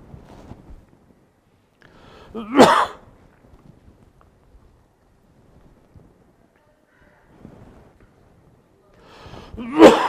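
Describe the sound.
Coughing and throat clearing: a sharp, rough burst a few seconds in and another at the very end, each loud against quiet, with faint murmuring between them.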